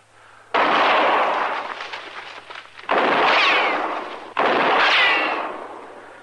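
Three loud gunshots ring out in a radio western drama. Each is a sharp, sudden crack with a long, rumbling decay, spaced a second or two apart, with no talking.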